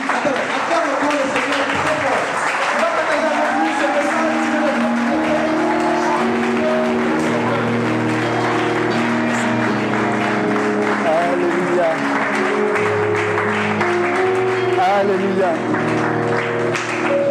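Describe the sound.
A church audience clapping and acclaiming at a French-language worship service. Continuous applause runs throughout, mixed with voices and sustained musical tones.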